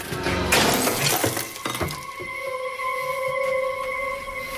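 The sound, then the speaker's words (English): A light bulb is smashed with a cutlery knife: a loud, sharp glassy crash followed by a few scattered tinkling fragments, then a steady tonal hum. “Climbing onto the upturned bed, she uses the knife to smash the room's light bulb.”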